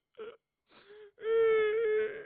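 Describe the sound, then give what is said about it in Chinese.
A storyteller's voice imitates a young woman crying, with two short whimpering sobs followed by a long, drawn-out, quavering wail. “又哭了。”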